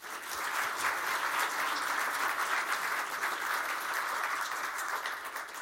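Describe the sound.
Audience applause welcoming two speakers to the stage. It begins after a brief quiet moment and then holds as a soft, even wash of many hands clapping, with no voices.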